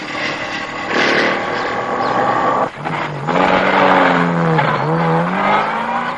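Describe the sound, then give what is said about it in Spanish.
A car engine roars and revs steadily as the car drives off. The sound dips briefly partway through, then the engine pitch rises and falls through further revving. “arranca y se marchan de allí”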